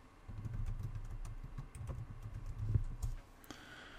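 Typing a search on a computer keyboard: a quick run of many soft, faint keystroke clicks lasting about three seconds, then stopping, with a low background hum underneath.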